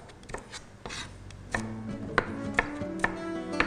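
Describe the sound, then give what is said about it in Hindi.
A knife cuts a bell pepper into cubes on a board, making several sharp, fairly quiet chopping strikes at an irregular pace. The strikes grow more frequent toward the end, with no voices. “Vegetable के लिए मेरे पास एक अदद शिमला और उसको थोड़ा सा cube form में काट लेना है”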